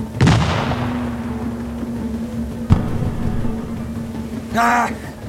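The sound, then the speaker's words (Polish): Gunfire from a frigate shooting at a sea monster: a heavy boom opens and rings out slowly, and a sharp, abrupt crack follows later, both over a steady low hum. “Niech strzela ktoś zręczniejszy! 500 dolarów nagrody temu, kto przeszyje to bydle piekielne!”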